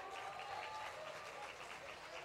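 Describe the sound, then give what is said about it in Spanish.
Audience applause greets a keyboard player introduced during a live band presentation: a faint, steady wash of clapping for about two seconds, with soft sustained musical tones beneath it. “Un aplauso para Jorge.”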